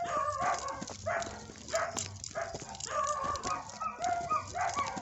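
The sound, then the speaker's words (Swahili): Stray dogs bark in a street at night, with many sharp, overlapping barks and a few higher yelps coming in irregular bursts at moderate loudness over a steady background hum. “Baada ya kupata taarifa za baadhi ya maeneo ambayo mbwa wanapatikana, nikaona hapana, wacha nipite mtaani majira ya usiku na nilichokishuhudia ni kama unavyosikia.”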